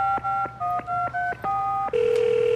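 Telephone keypad tones sound as a number is dialed to call someone again after being cut off. A quick, even series of short beeps at varying pitches with brief gaps between them is followed by a steady tone.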